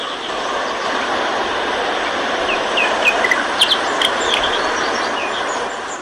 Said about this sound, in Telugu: సెలయేటి గలగలలు, చిరువాగుల సవ్వడులు, నిండైన విశాల జలాశయాలు, నిశబ్దారణ్యంలోని పక్షుల కిలకిలారావాలు వింటుంటే మనస్సు పులకరించిపోతోంది